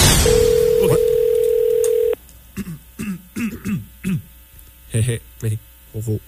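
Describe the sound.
Ring tone of an outgoing telephone call: one steady, even tone lasting about two seconds, then the line is answered and people talk.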